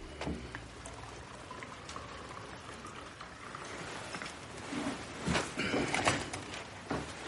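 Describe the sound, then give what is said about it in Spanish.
Coffee poured into a cup makes a low, steady liquid splash and trickle that grows louder and fuller toward the end. No one speaks. “acerca una taza y él le sirve café.”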